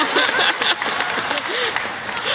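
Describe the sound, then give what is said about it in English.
Audience applause, dense and continuous clapping at a steady level throughout, with a few voices mixed into the crowd noise. “And she gets applause.”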